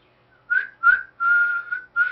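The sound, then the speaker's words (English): A person whistles: two short, clear notes at a steady pitch, then a longer held tone and the start of another, with brief gaps between them. “Can you whistle?”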